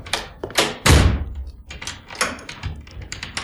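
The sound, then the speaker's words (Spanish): A door shut and locked with a key: a heavy thud followed by a series of sharp clicks and knocks, with no talk. “Y cerró la puerta con llave. Estoy encerrado.”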